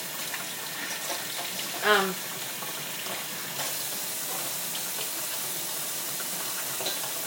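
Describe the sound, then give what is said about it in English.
A running tap gushes as hands are washed beneath it, giving a steady hiss of water that grows a little louder partway through. “I'm going to wash my hands.”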